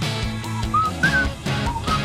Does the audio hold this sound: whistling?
yes